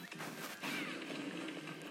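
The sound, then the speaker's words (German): Crashing and smashing hits land on a safe in a video game as it is broken open. The clatter is dense and continuous at moderate level. “Okay, ich mache halt den Tresor kaputt.”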